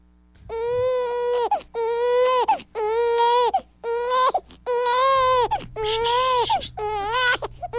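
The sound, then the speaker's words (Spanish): A baby crying in many loud, strained wails, one after another, each a sustained harmonic cry broken by brief gasping gaps. “Ya. No llores.”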